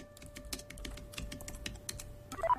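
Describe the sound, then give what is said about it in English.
Fingers tap on a computer keyboard in a quiet, irregular patter of light clicks, faint overall, with a brief electronic tone near the end. “At the Riveras, Sky types.”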